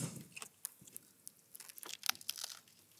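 Crunchy food being chewed during a taste test, a dish scattered with rocket, gives faint, irregular crisp crunches and crackles spread through the moment.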